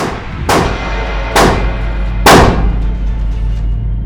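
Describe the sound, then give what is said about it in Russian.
Three loud gunshots ring out in a dramatized scene, spaced about a second apart. Each is a sharp crack with a short decaying tail over a low, steady hum. “Еще стреляй. Еще. Еще. Еще. Еще. Стреляй!”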